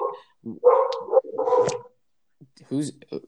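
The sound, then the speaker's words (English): A dog barks amid conversation: a few short barks and yips are mixed in with people talking. “the dog approves. And the dog totally approves of this podcast”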